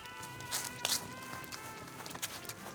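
Footsteps hurry across a field, several soft, irregular thuds and scuffs that stay faint over a low, steady background.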